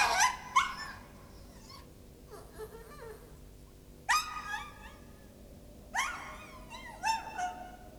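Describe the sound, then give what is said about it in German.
A small dog whimpers and yelps in a few high, strained bursts separated by pauses, over a low steady background hum. “Ach, der widerwärtige kleine Hund. Willst du wohl, zieh ab.”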